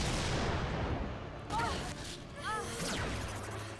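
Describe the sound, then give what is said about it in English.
Blasting sound effects from a villain's attack in a superhero action series: a faint, continuous rumbling roar broken by a few sharper bursts, some carrying brief whining electronic tones. “All that blasting from Lord Zed, or Master Zed, sorry, and this is what causes them to demorph?”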